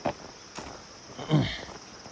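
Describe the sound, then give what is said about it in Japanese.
Footsteps of someone walking on a long-distance trek, a few soft, widely spaced steps, faint and irregular. “今歩いてますね うん今歩いとる”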